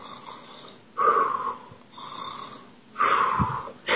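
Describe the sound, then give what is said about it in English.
Snoring from a monster in a Halloween trick-or-treating story, a few rhythmic snores that swing between louder, rougher rasps and softer airy breaths, with nothing else heard. “Then, one monster starts to snore.”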